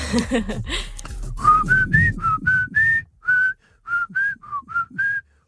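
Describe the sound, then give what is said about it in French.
A person whistles a tune from a film soundtrack: a clear, fairly high melody of many short, distinct notes in a steady rhythm, stepping slightly up and down in pitch. “Mais avant, je voudrais que tu me siffles un petit truc.”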